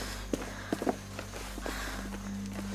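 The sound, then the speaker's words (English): Footsteps of people running: a few sharp footfalls, closely grouped early on, then fainter steps over a steady low hum. “Just keep running. We've been running for a long time. I can't go any further.”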